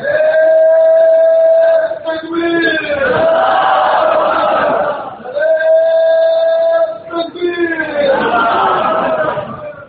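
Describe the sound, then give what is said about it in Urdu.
A crowd at a Quranic exegesis (tafsir) course gathering shouts a slogan: two rounds of a drawn-out, steady-pitched call, each followed by a louder, rougher mass response of many voices. “نعرہ بے موقع لگایا ہے”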